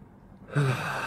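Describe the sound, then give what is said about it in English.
A single deep breath is drawn in, starting abruptly after near silence and continuing as a faint, airy rush of air. “Deep breathe. Try.”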